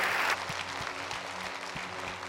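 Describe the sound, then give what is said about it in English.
An audience in church claps steadily in dense applause, welcoming new members into the church family, with a brief brighter burst at the start. “Can we put our hands together and welcome some people into God's family today?”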